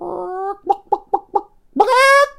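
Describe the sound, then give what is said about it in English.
Chicken clucking imitated by a human voice: a drawn-out voiced tone, four short clipped clucks in quick succession, then a longer squawking call. “Now a duck says, quack, quack, quack, quack. And a chicken goes,”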